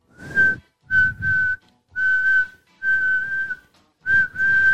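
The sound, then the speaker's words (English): Loud whistling heard indoors, in five sustained phrases at a steady, fairly high pitch, each broken off by a short pause, with no talk. “And I'm like, what is this whistling? It's pretty loud in here.”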